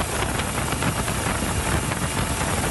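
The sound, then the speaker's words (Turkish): Roaring engine noise from a stolen luxury boat racing away from security forces in a sea chase off Mallorca, a loud, unbroken rushing drone with no let-up. “İşte o anlar. O kaçtı. Güvenlik güçleri kovaladı. Denizdeki son sürat kovalamaca macera filmlerini aratmadı.”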